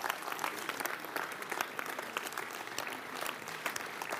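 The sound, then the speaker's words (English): Audience applauding in church, a faint but continuous rattle of many hands clapping together at an even, steady level from start to finish. “Let's give the Lord a hand.”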